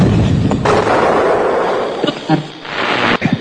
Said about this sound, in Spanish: El fuego de nuestra artillería es cruzado hacia dos aviones que hemos divisado hasta el momento.